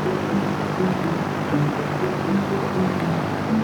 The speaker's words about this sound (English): So this is a Velocity aircraft. It's a kit-built aircraft.